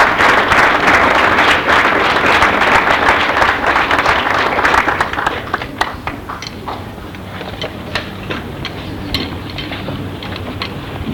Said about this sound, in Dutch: En we mogen haar best wel een applaus geven.